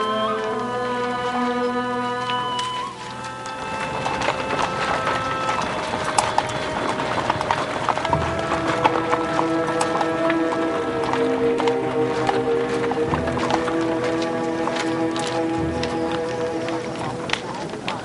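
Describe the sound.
Horses' hooves as the animals are led to a stable: a steady, continuous run of many clip-clopping hoof beats, heard under people talking and a sustained tonal background.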